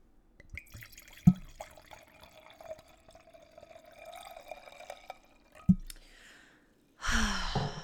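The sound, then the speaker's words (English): A sugar-free, zero-carb drink of the Basque brand being poured into a glass: a sharp clink, a steady trickling fill, then a second clink, followed by a burst of breathy noise at the end. “That is the sound of me pouring myself a glass of Basque.”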